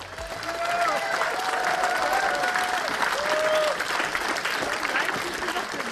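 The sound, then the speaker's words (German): Applause from a crowd of over 400 people at an outdoor political rally on a market square, with flags raised as a speaker takes the stage. Dense, steady clapping fills all six seconds at an even level. “Unter großen BSW-Flaggen und Applaus betrat Sarah Wagenknecht die Bühne”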